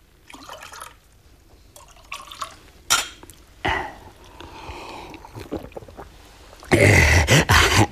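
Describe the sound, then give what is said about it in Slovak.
Another drink is poured: faint clinks and small handling sounds come first, then a loud, bright burst of gurgling liquid near the end. “A ešte jeden ti nalejem.”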